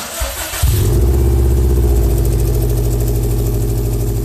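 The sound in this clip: A freshly repaired Subaru car engine cranks briefly, then catches and settles into a loud, steady, rumbling idle that keeps running to the end without talk.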